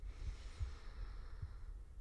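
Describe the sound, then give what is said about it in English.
A deep breath drawn in through the nose, a steady airy inhale that stays even in loudness throughout, with a few soft low thumps beneath it. “if we just take a deep breath in through our noses here”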